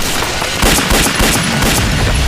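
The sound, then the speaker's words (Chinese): Gunfire as shots are fired to draw back an enemy patrol: many rapid, harsh, booming shots packed into a dense, loud barrage with no pause and no talk. “我开枪把他们吸引过来了。”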